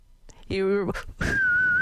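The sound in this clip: A person whistles a steady, sustained high note right after a short burst of voice.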